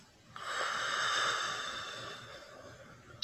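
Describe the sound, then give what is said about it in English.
A long, steady breath of air from a guided deep-breathing exercise of inhaling through the nose and exhaling through the mouth; one sustained airy rush that slowly fades, heard alone without talk. “Inhale in through your nose. And exhale through the mouth.”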